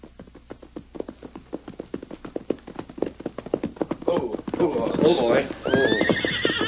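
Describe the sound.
Hooves of a ridden horse clip-clop in a quick, steady rhythm of many sharp taps on the way to a bank, then a loud, shrill whinny rises over them toward the end.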